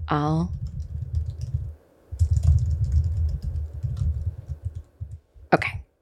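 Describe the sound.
Computer keyboard typing as a reply message is written at a table, a steady run of muffled key clicks with a brief pause in the middle and a sharper noise near the end.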